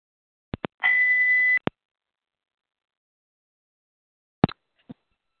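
Skype incoming call tone: a steady electronic beep about a second long, with short clicks around it, then a few more clicks after a pause of near silence.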